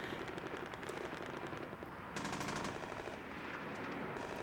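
Machine-gun fire from a Humvee gunner returning fire while surrounded by smoke in combat: repeated rapid bursts of shots, one burst louder near the middle, over a constant noisy rumble.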